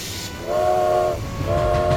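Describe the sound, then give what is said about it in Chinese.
A train whistle sounds as a caterpillar train sets off in a children's story, with two sustained tonal toots, the first longer and the second following after a brief gap, over a low rumble. “哔，提醒大家赶紧上车。毛毛虫列车就要开动喽，请大家赶快上车。”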